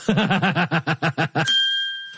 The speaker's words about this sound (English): That deserves a bell